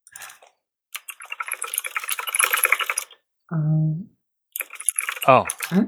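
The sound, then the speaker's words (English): Typing on a computer keyboard: dense runs of light, rapid clicks in bursts, broken by a short pause and a brief low tone before the clicking resumes. “I don't know why I just typed that”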